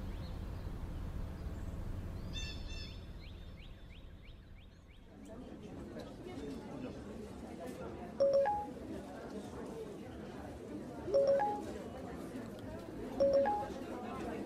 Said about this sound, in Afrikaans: Kan die vroumens nie alles in een boodskap vra nie. Hoor en weer getikkerry irriteer my.